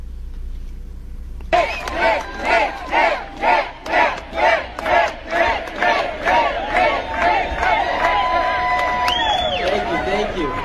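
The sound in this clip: A crowd at a political rally in California against a bill roars into a rhythmic chant: many loud, evenly spaced surges of massed voices, roughly two each second, carrying on to the end.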